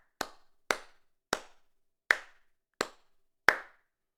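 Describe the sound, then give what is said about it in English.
Six slow, isolated hand claps greet the winner of the Masters golf tournament. The response is thin and underwhelming, with crisp, sharp slaps spaced roughly half a second or more apart and silence in between. “I've never heard such an underwhelming applause for a Masters winner.”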